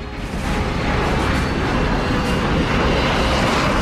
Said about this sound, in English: takes off from the airbase runway.